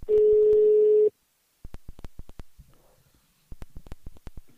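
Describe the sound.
A telephone dial tone hums steadily for about a second as a call for a phone survey is placed. It then cuts off and gives way to many short, sharp dialing clicks in quick bursts.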